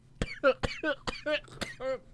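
Coughing from a tickle in the throat: a quick run of short, harsh coughs, several with a voiced, throaty edge, fairly faint and spaced unevenly.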